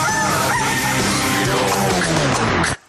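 A rooster crowing in one long, loud, harmonic-rich call that holds steady, then cuts off abruptly at the end.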